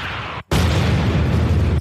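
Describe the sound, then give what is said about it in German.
Explosion as a building is blown up: a burst of broad noise, a brief cut to near silence, then a loud, sustained roaring blast that stops abruptly. “So finden wir die Parallelknopfsphäre und sprengen den Scheißladen in die Luft.”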